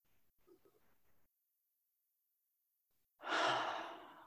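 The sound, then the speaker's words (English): A single deep, sighing breath out after near silence, taken during a guided breathing moment in a church prayer service: a loud, breathy rush that swells quickly and then fades over about a second. “we can also notice the indwelling of the Spirit as we breathe in and breathe out. So take a full breath with me.”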